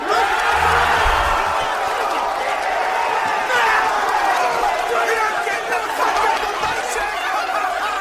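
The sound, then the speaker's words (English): Football fans chant en masse, a sustained roar of crowd voices rising and falling in a steady rhythm, with a few sharper bursts breaking through the massed sound. “the expert use of the dramatic pause, allowing the fans to really get that chant going.”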